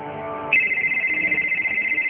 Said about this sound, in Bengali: এই aunty phone দিছে।